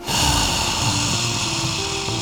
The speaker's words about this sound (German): Und bis dahin wollen wir alle nochmal zusammen tief einatmen.